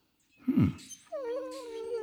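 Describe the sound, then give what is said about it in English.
A golden Labrador dog whimpers: a brief, strained yelp followed by a sustained, high, nasal whine that holds steady to the end, moderately loud and alone. “What's that? Oh, it's a dog. A golden lab, if I'm not mistaken. He's talkative, too.”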